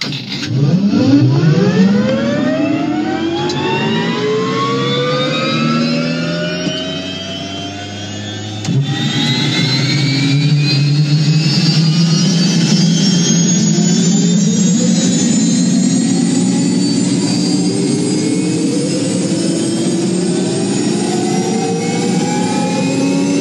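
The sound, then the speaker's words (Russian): A small craft's engines howl and rev up. Whining tones sweep steadily upward in pitch over a heavy low roar, the sound dips briefly near the middle, then surges on, loud and sustained to the end. “Двигатели взвыли и начали набирать обороты.”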